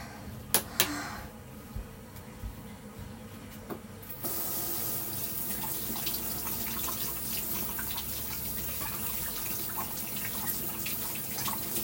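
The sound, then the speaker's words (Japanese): Tap water runs into a sink as a child's hands and toys are washed. A few soft knocks and clicks come first, then a steady, even stream of water starts partway through and keeps flowing. “お手手でおしっこ触っちゃったので出て洗って、おもちゃもちょっとだけ洗いたいと思います。”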